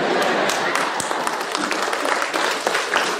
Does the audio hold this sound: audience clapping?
yes